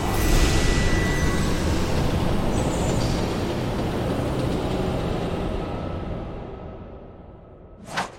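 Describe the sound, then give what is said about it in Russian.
A train enters a long tunnel with a loud, steady rushing rumble that slowly eases over several seconds. “Туннель? Да, и очень длинный. Поезд въезжает в туннель.”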